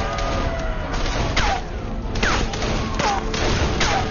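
A volley of gunfire from several shooters in a dense, continuous barrage of rapid shots, with a few louder bursts standing out from the clatter.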